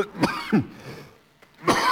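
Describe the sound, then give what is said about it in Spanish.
A few small, dry coughs with no speech: two quick hacks close together, a quiet pause with a faint catch, then another harsher cough at the end. “Perdóneme usted esta tosecita que luego me agarra.”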